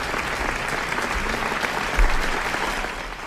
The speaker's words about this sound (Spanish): toda esa gente que está aplaudiendo, este, pues es por mi parte para agradecerles